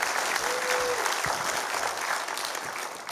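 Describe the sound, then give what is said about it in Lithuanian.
Audience applause fills the whole stretch as dense, steady clapping from a crowd, holding at an even loudness and easing only slightly toward the end. “Gal paskutinį kartą plojat.”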